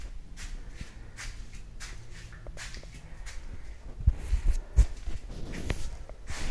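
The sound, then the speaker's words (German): Shuffling footsteps of someone walking into a living room while carrying a load of things: a run of soft scuffs and steps, with a few heavier thumps toward the end. “Ich werde jetzt mit dem ganzen Zeugs ins Wohnzimmer gehen.”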